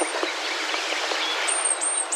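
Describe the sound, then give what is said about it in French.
A male blue tit sings in oak trees on a spring morning before sunrise, giving thin, high-pitched repeated notes that grow clearer in the second half over a steady hiss of background noise. “j'étais en train d'enregistrer un mâle de mésange bleue qui chantait”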